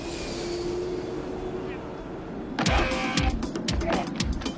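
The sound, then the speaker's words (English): A shuttle bus pulls out of a parking lot. A low, steady hum gives way after a couple of seconds to a louder, rattling engine sound with repeated pulsing bursts. “The shuttle is pulling out of the parking lot.”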